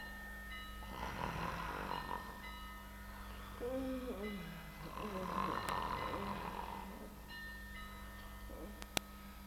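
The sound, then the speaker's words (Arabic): Slow, heavy breathing in two long, breathy swells with a snort-like catch between them, heard faintly over a steady low hum. “أنصت إلى الساعة، أنصت إلى أصوات التنفس.”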